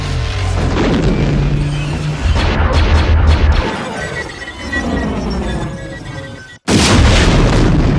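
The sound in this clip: A missile explosion in a science-fiction film: a loud, heavy boom with crackling, shattering debris that rumbles on, then fades. After a brief near-silent cut, another loud blast follows.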